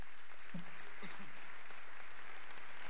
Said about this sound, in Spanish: Y un aplauso